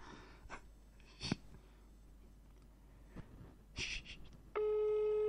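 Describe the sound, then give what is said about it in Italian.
A telephone ringing tone sounds near the end as a steady, loud electronic tone, preceded by a few faint, short breathy noises over quiet background. “Squilla.”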